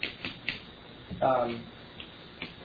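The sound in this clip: Writing on a board during a Bible lecture: a few sharp, dry taps and clicks of the writing tool at an uneven pace, with a short voiced sound in the middle.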